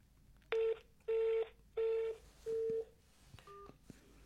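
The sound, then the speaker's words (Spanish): Touch-tone telephone dialing while placing a call, four evenly spaced beeps of similar length and loudness, followed by a few faint short clicks and tones. “Le estoy llamando a su director de prensa.”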